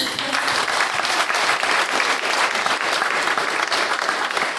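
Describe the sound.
Church audience in Hesel applauding to welcome a guest, loud, dense and even clapping from many hands that keeps a constant level from start to finish.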